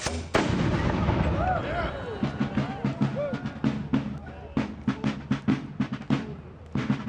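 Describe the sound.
Gunfire rings out after an order to fire in the 1836 Texas revolt against Mexico. A loud opening blast is followed by many sharp, irregular shots in quick succession, with shouting voices early on.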